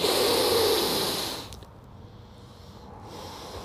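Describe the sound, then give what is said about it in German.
One deep breath is drawn in as a long, airy hiss lasting about a second and a half, then fades to near quiet with a faint trailing rustle. “Und wenn du einen gescheiten Atemzug einnimmst, so.”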